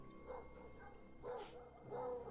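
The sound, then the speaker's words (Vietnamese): A pack of dogs barking at night in the dark: a few faint, scattered barks with a low background between them. “đàn chó vẫn không ngừng sủa inh ỏi”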